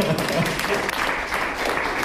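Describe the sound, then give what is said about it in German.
Applause from an audience at a mayor's speech, a dense, steady patter of many hands clapping that holds at an even level throughout. “ein Applaus.”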